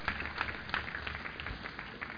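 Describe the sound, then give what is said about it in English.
A church audience claps during a sermon as a clap offering. The claps are faint and irregular, a soft patter of quick hits. “Give the Holy Ghost a clap offering.”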